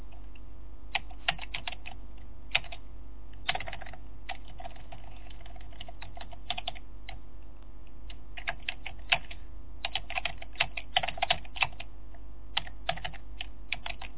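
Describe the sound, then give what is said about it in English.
Rapid typing on a computer keyboard as a command is entered at a command prompt, with many quick keystrokes clicking in uneven bursts and short pauses throughout, no talking. “So, like, I'm in a command prompt. I type in... This is not the actual command.”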